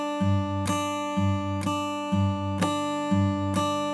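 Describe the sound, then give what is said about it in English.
Fingerpicked acoustic guitar in a banjo-style pattern: the index fingernail strikes the high D string, alternating with the thumb on the low G string. Eight evenly spaced plucked notes ring out clearly, each sustaining briefly before the next attack. “We're gonna hit the high D string with the top of our index finger nail, or middle, whichever's more comfortable, and alternate that against the thumb on that G string, the low G string. So it'll sound like this.”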